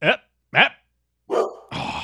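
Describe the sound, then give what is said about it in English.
A dog barks a few times: two short, sharp barks with pauses between them, then a longer, rougher bark running straight into a harsh, noisy burst. “I'll tell that dog to stop barking”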